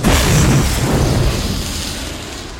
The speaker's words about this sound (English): a ball of fire erupts into the sky. Timbers crack and crunch into the dirt.